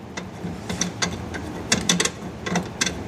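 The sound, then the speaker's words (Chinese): Ratcheting clicks come from tightening a mounting bracket for an air conditioner's outdoor unit after it is clamped onto a window. Many irregular sharp ticks form uneven bursts, with no voices. “往窗户上一扣。 卡这里是吗？ 对，是的，往上一扣，然后稍微拧紧就 OK 了。 加固一下。”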